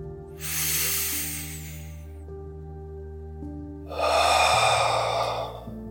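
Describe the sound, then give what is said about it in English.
A deep breath in, then a long breath out: two airy, hissing swells a couple of seconds apart over a soft, steady musical drone. “I want you to take a big, deep breath with me. Let go of that breath.”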